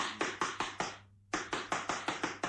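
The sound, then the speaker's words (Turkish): Knocking on a door: a quick run of sharp, evenly spaced raps, then a short silence, then another run at the same brisk pace. The knocks are loud and stand alone. “Yoksa kapıyı vurayım bakayım.”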